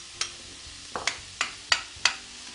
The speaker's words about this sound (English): They're starting to soften up, so I'm going to add some celery